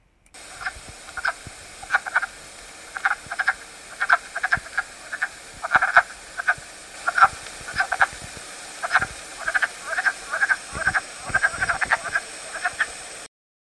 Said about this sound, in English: Wood frog.